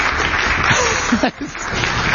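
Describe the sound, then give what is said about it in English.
Audience applause after everyone answers a civics quiz question correctly: a dense, even patter of clapping for about two seconds. It dips briefly midway, and a few voices sound through it. “Let's just have a round of applause for 100 of 100.”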